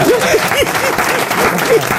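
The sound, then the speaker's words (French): An audience claps steadily through a comedy routine, a dense and even patter of many hands, with voices calling out over it. “Vous applaudissez pas?”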